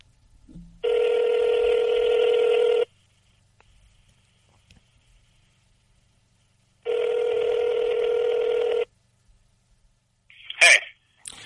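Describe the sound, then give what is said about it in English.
Ringback tone of an outgoing phone call placed to someone at work: two long, steady buzzing rings of about two seconds each, separated by silence, then a short clatter at the very end. “Let's call Dipperstein at work and see if he answers.”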